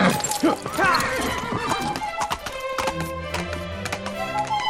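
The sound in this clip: A horse whinnies and then its hooves clip-clop in a quick, steady rhythm as a rider spurs the mount on; the hoofbeats ring out as sharp, clear taps, with no talk over them.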